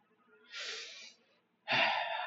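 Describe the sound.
A deep breath is drawn, heard as two quiet, airy breaths. The first is soft and drawn out, and after a brief pause the second is louder and more forceful.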